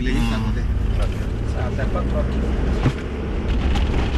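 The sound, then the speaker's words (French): A vehicle driving along a rough, bumpy bush track in semi-desert country in Niger, with a continuous low rumbling drone, wind buffeting and occasional jolts. “Donc là, on est rentré sur une piste de brousse. Donc le chemin est un peu chaotique.”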